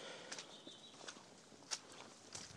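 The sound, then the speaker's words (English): Faint bird tweets in quiet countryside at the edge of a housing estate: a thin whistle and one sharp, high chirp over soft footsteps along a muddy path. “Very quiet around here as well. You can just hear the birds tweeting.”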